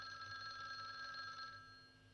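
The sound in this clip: A telephone rings with a steady, buzzing electronic bell tone. It sounds alone for about a second and a half, then stops.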